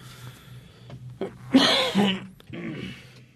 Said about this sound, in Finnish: Sori, piti vähän kakasta.